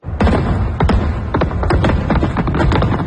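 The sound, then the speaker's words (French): Fireworks go off over the Toronto waterfront at midnight, a loud, dense run of many cracking bursts and deep thumps that pile on one another without a pause. “Alors, feu d'artifice pendant 10 minutes.”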